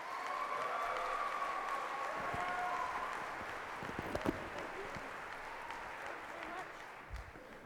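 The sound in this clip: An audience at a Harvard lecture event applauds a professor invited to speak, with steady clapping that gradually thins and softens toward the end.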